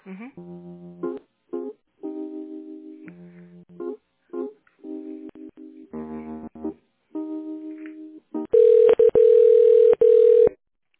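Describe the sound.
Telephone line tones while a call is being transferred: a run of short, clean electronic tones in changing pitches, followed by a louder steady tone of about two seconds with brief breaks.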